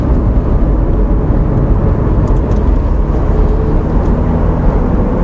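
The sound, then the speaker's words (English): Steady low rumble of a car driving through the village of Fradley, a continuous, loud road and engine drone with no breaks and no voices. “So we're just driving through the village of Fradley on the outskirts”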